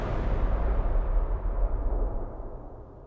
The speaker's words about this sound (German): Sie müssen das Gestein sprengen,